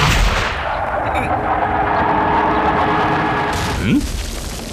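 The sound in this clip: Artillery fire aimed at houses below a city wall: a heavy boom opens into a loud, sustained roaring rumble that fills the whole clip.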